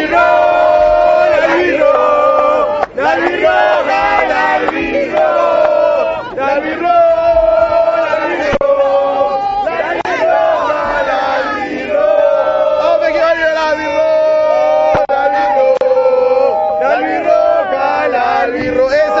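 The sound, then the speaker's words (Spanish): Paraguay football fans, including supporters from Concepción, sing a loud chant together in a stadium. The many voices carry a steady, melodic, repeating line that stays strong for the whole stretch. “Quiero un cántico de Paraguay. Rápido, dale.”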